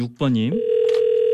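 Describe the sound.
A steady, continuous telephone dial tone sounds as a call is placed to a listener. It enters right after a brief voiced syllable and holds at an even low-mid pitch to the end.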